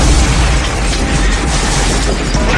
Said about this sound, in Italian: 5 persone sono morte, 75 sono state gravemente ferite a causa della bomba fatta esplodere dall'ira senza preavviso nel pub di Guildford.